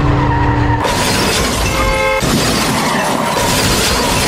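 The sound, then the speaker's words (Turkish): An out-of-control car on a street in Adapazarı, Sakarya, crashes into a cafe's outdoor terrace. A sudden, loud burst of smashing and shattering gives way to sustained harsh noise. “Hızla ilerleyen araç bir kafenin açık alanına daldı.”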